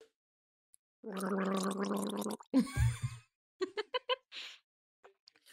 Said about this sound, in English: He caught me gargling. Yeah. You really gargle?